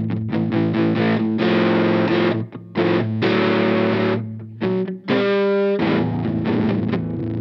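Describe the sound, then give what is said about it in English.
Electric guitar, a Telecaster, played through a fuzz distortion pedal preset powered by two 9-volt batteries. Gritty, saturated strummed chords ring out loud and sustained, with a few brief gaps between phrases and no talk. “That's a good sound in fuzz.”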